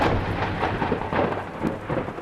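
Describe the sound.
Thunderstorm with rolling thunder and heavy rain: a loud, continuous rumble mixed with dense rainfall noise, with a few stronger swells and no voices.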